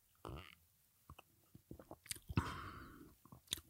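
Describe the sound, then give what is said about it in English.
Close-up slurp and swallow of tonic water: a wet burst at the start, scattered small mouth clicks, then a drawn-in slurp followed by faint lip and swallowing sounds, all fairly quiet. “I'm about to do a little like close in slurp and then I'm gonna do, like swallow maybe with my lips a little bit. You know, get it around the palate.”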